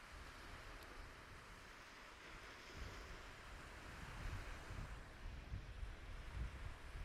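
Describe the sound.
Surf and wind at a sandy, overcast beach, heard from far back on the sand: a continuous low rumble of breaking waves with wind buffeting over it, swelling a little louder in the later part, no voices.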